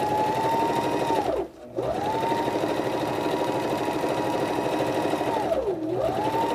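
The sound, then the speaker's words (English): Sewing machine stitching fabric, the cloth held taut by hand as it feeds through: a steady, loud motor whir that stops briefly twice, its tone sliding down into each pause and back up as stitching resumes. “Your right hand, I kind of use it to pull out the fabric like this to hold it taut so that it doesn't wrinkle as it's going through the machine.”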